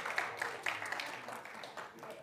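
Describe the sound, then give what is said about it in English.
Applause for a returning traveling missionary: faint, dense clapping that runs steadily through the moment, mixed with voices. “Let's give a big round of applause for our traveling missionary, Mr. Hernandez.”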